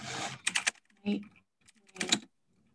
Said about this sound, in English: That's a loud keyboard. It's mechanical